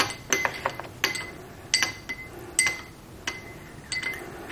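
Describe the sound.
A spoon clinks against a glass while American ginseng powder is stirred into a drink, giving a series of sharp, irregular clinks and taps at uneven intervals.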